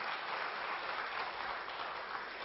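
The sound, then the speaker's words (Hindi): Sustained applause from an audience at a religious assembly, an even, dense wash of clapping that holds steady and rather faint for the whole stretch, with no talk over it. “ऐसी ताली बजाओ जो निर्वेर भाई को शांतिवन में सुनाई दे।”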